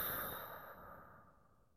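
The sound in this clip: A slow, deep breath out during a guided relaxation, a soft, airy sigh that fades steadily over under two seconds, faint and heard alone.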